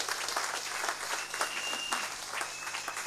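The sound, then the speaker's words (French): A church audience applauds loudly, a dense, steady wash of many hands clapping that holds at an even level for the whole stretch, with no voices standing out. “Et même, ils vont s'acclamer très fort pour leur dire merci aussi.”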